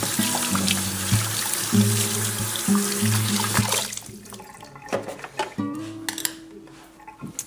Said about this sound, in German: So. Kaffee ausspülen. Jetzt mal über. So, jetzt kann ich auch hier ausspülen.